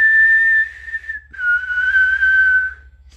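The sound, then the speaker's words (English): Someone whistles a menacing villain's tune: a long, clear high note that slides slightly down, then a lower sustained note that drifts gently downward before fading, loud and alone. “So I started doing the Negan whistle, you know, and I started swinging a bat”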